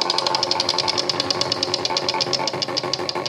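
A game show prize wheel spun for a team, giving a fast, even stream of bright clicking ticks that run steadily throughout.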